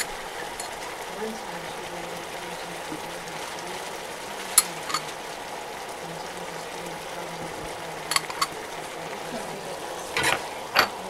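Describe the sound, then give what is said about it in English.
Garlic puree is stirred and fried in a pan while pancit is cooked. A faint, steady sizzle runs throughout, broken by a few short scrapes of the stirring utensil. “This is garlic. Garlic puree.”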